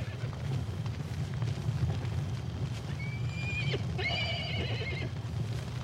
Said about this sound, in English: He quickly opens the pen and releases the horses.